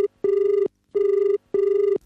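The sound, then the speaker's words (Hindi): A telephone rings with an incoming call, sounding three steady, buzzing bursts of the same pitch separated by short gaps, clear and alone with no talk. “Hello, कार्यक्रम तुहर गोठ हमर गीत कार्यक्रम में आप phone लगाए हो”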